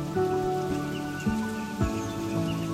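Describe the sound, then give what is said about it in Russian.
Quiet summer rain falling on a surface: a soft, steady, even patter that holds through the whole stretch, joined by low sustained tones and no voices. “вы можете услышать звуки дождя”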